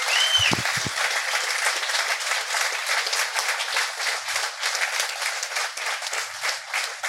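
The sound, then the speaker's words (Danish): A television studio audience applauds a guest, a house painter, as he comes on: dense, continuous clapping from many hands, loud and steady throughout. “Mine damer og herrer, giv en kæmpe stor hånd til en ejendomsmaler. Kæmpe stor hånd.”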